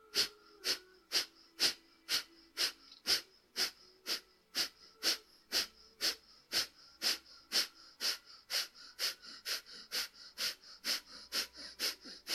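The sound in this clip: Breathing in and out through the right nostril comes as many evenly spaced, sharp breathy puffs in a fast, steady rhythm, fairly faint and with no talk.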